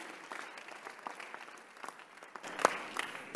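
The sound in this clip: Congregation clapping during a church sermon: a soft, scattered patter of hands that thickens slightly toward the end, with a few sharper individual claps standing out.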